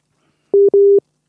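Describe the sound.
A busy tone sounds after a dropped phone call: two loud, steady mid-pitched beeps in silence, the second longer than the first.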